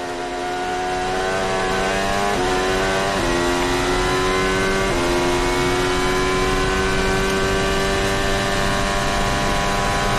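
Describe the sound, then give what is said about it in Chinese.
Racing cars overtaking, downshifting and turning on a race circuit, their loud, high-pitched engines droning continuously, with a few abrupt pitch shifts as gears change. “克拉平托这是一下超两辆车啊！降档转向。”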